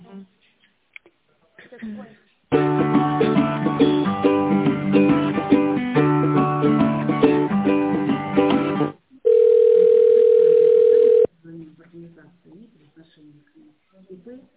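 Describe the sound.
Telephone hold audio during a call transfer to a tenders specialist: thin, phone-quality hold music plays for several seconds, then a single steady tone lasts about two seconds, with brief speech before and after.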